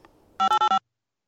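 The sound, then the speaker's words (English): Touch-tone telephone dialing: four short, evenly spaced beeps, each a steady two-tone chord, sounding loud and clean against near silence and ending abruptly. “Oh, you probably can't hear it. Mm-mm. The, touch tone. Oh, I can hear it now.”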